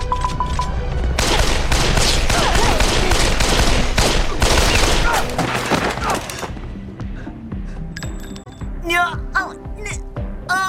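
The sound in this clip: Heavy gunfire crackles in a dense fusillade of rapid, overlapping shots, loud for several seconds. It then thins into scattered sharp sounds as raised voices come in.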